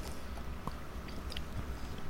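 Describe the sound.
Biting and chewing on a Neapolitan-flavoured treat, heard as soft, moist mouth noises with a few faint crunchy clicks scattered over a steady low background, with no talking.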